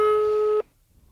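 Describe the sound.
A phone call ringing out on speakerphone: a single steady, mid-pitched ring tone lasting just over half a second, then cut off abruptly into near silence.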